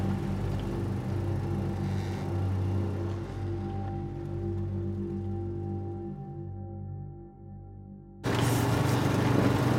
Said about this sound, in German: Ich fahre zum schwarzen Leuchtturm.